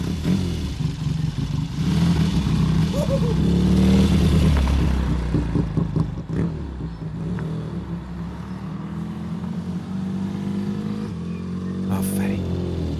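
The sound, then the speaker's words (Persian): A car engine pulls away smoothly as the clutch is slowly released and throttle applied, giving a mid-pitched hum with light clatter while voices talk over it. “حالا کلاج رو آروم ول کن و همزمان گاز بده آها. خب اینجوری خیلی نرم شروع میکنه به حرکت”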